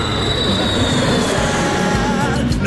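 An airplane landing sound effect: a loud, steady roar of engine noise with a thin high whine running throughout.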